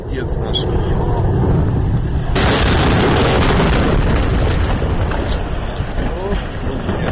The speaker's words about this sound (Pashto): د روس پروټون ام نومي یو راکټ د خپل الوت یو څو سیکنډ وروسته تباه شوی دی.